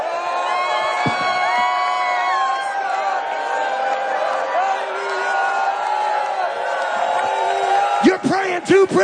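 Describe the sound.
A church audience shouting and cheering during a lively worship service, with a dense mass of raised voices, whoops and sustained cries over steady crowd noise, and a few louder bursts near the end.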